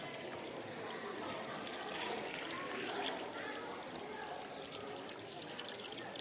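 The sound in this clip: Water is poured from a jug in one steady, continuous stream, a quiet splashing trickle that holds at an even level throughout.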